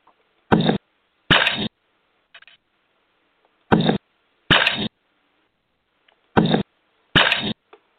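A camera shutter clicks as a photographer snaps shots of a woman leaning over a bike. Six sharp mechanical bursts come in three quick pairs separated by silence, with a few fainter ticks in between.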